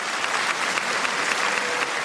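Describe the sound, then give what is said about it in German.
Long, sustained applause fills a packed opera house in Rome after an opera chorus. It is a dense, even roar of many hands clapping, loud and unbroken, with no voices standing out. “Lang anhaltender Applaus nach dem Gefangenenchor Va Pensiero aus Giuseppe Verdis Oper Nabucco.”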